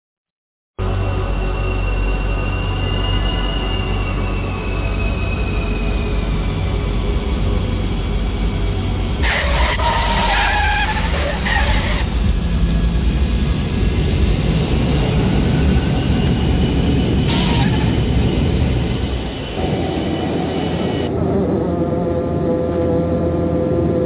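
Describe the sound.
An airplane landing gives a steady, loud engine roar and low rumble that lasts throughout, with a few short bursts of brighter noise midway and a slight dip near the end.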